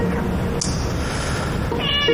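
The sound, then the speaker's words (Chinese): A cat meows once near the end, a short high-pitched cry rising out of a steady background hiss. “这谁的猫啊？”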